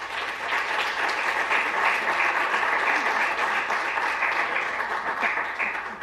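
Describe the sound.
An evening audience at a Douglas County mental health event applauds a speaker's introduction, a steady wash of many clapping hands that stays even and eases slightly near the end.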